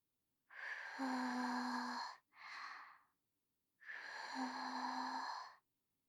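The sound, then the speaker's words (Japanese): Three breathy puffs of a person blowing on hot food to cool it: a long soft blow, a shorter one, then another long blow after a pause, with a faint voiced hum in the breath and no talk. “ちょっと暑いだろうから、よーく冷ましてあげるわね。”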